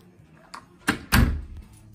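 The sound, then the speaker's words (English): Door being pulled open, a door that must be pulled to get it to open: a faint knock, then two heavier wooden clunks close together, the last one loudest with a short rumbling tail. “door needs to be pulled while you try to open it, so it actually wants to open”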